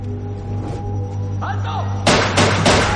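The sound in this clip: Gunshots fired from a distance by secret service agents in a thriller film. Three sharp cracks come in quick succession near the end, after a stretch of low steady hum with a brief vocal sound.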